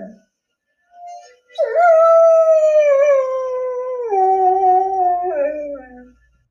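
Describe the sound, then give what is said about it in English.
A Groodle dog howls: a brief whine comes first, then one long, loud, wavering howl that steps down in pitch twice before trailing off. “So I have a Groodle howling sound that I would like you to translate for me today.”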